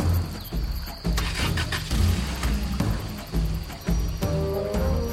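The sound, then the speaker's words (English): A car driving away, its engine a loud, uneven rumble with repeated surges and short bursts as it pulls off. “We watch Bharat drive away.”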